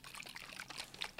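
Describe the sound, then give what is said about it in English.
A Four Sigmatic mushroom focus shot with lion's mane and chaga is poured in a soft, steady trickle, faint and continuous with no voices. “That is the sound of me cracking open one of my favorite beverages, the Four Sigmatic Mushroom Focus Shot with lion's mane chaga.”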